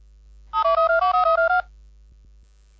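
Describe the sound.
A telephone rings as a call is placed for an interview: one loud warbling burst of about ten rapid pulses alternating between two tones, then near quiet with a faint click.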